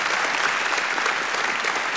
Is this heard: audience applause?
yes